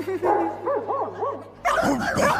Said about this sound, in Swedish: Inte skälla mer, men mindre. God afton, söta vofsingar.